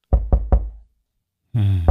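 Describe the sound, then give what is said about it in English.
Knocking on a door as a Halloween sound effect: three loud, hollow knocks in quick even succession, then silence before a voice begins. “The knocks. Oh, the knocks. The knocking, the knocking. There's knocking in Macbeth.”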